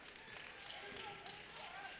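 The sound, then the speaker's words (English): A basketball is dribbled during a boys' high school regional championship game between Cros-Lex and Goodrich. The faint, quick bounces sit under a play-by-play voice and gym noise. “Dribbling out by the volleyball line into the corner.”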